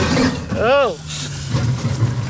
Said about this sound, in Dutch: We rijden op een hele slechte weg.